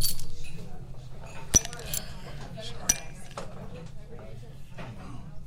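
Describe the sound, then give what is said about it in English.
A spoon clinks against cutlery and dishes at a restaurant table: a few sharp, bright metallic taps scattered over a low, continuous background murmur. “and it's a spoon. Okay, it's got a watermark on it.”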